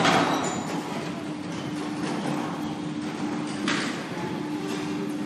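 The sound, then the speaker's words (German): A large gate closing at a cemetery, a grinding metallic rumble over steady background noise, with one sharper knock near the end. “und da schließt sich schon, Sie hören es, liebe Zuhörerinnen und Zuhörer, das große Tor.”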